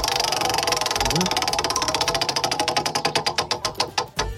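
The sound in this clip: A country music trivia prize wheel spins, its ratchet clicking rapidly at first and then slowing into many evenly spaced, louder ticks before it stops.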